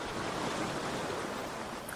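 Ocean waves wash in at sea, a steady, even rush of surf noise with no distinct breaks and no voices.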